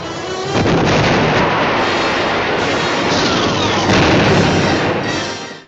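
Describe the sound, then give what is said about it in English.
Bombs exploding under naval shelling of an island in a war drama, a dense, loud roar of blasts and rumble sustained for several seconds without clear gaps between impacts. “You stupid bombs! You're firing at your friends!”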